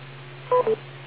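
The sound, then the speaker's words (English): A radio repeater beep tone on an amateur radio net: two brief electronic beeps, one right after the other, over a steady low hum. “I was waiting for the beep.”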